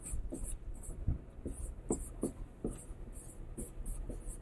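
Writing by hand while working through an equation: faint, quick scratching strokes in an uneven rhythm, many short strokes in a row.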